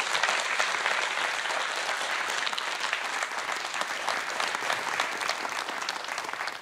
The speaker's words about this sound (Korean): 큰박수로맞아주십시오